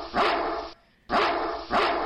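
A dog barks three times in quick succession. The barks are loud, full-bodied woofs with a short silent gap after the first, and the last two come closer together.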